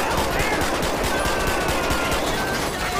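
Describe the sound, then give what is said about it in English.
Automatic gunfire rattles in a police-simulation video game during a desert shootout, a dense, unbroken stream of loud rapid shots over the whole stretch. “We need units. We're getting shot at.”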